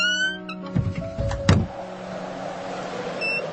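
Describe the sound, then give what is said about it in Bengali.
An electric car power window opens with a tonal motor whine, then a couple of soft thunks, followed by steady low, faint background noise. “জানালা খুলতো।”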